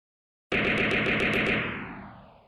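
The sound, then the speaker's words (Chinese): Abrupt silence breaks into a loud machine-gun burst of rapid shots striking the ground. The shots fire in quick succession for about a second, then a rumbling tail fades away. “这排子弹不出意料的打进了乔小苗脚前方的土中，最近的子弹几乎贴到了乔小苗的脚边。”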